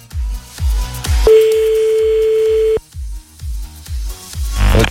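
A single steady telephone ring tone while a call is placed, lasting about a second and a half. It sounds over a thumping, rhythmic music bed that plays before and after it.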